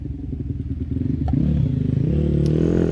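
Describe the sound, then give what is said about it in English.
Racing motorcycle engine, a 2000 BMW 720 single-cylinder machine, rounding Ramsey Hairpin on a road-race course; a throbbing, harmonic engine note grows louder midway and then holds steady and strong. “Third bike's just coming through Ramsey now.”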